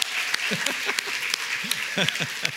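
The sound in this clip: Church audience applauding while standing to welcome a pastor, with steady, dense clapping and scattered voices calling out over it.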